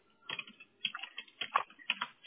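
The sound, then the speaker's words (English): Computer keyboard typing as keywords are entered, a quiet and irregular patter of light key clicks arriving in small bursts with short pauses between them. “And now I'm going to type out all of those keywords.”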